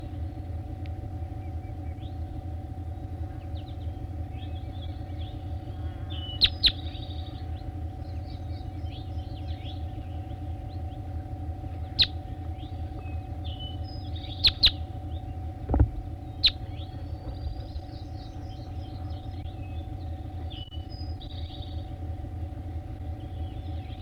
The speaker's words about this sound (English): That was bird 3-4, stop. Recording bird 3-4.